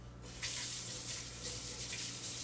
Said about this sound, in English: So I'm washing the apple.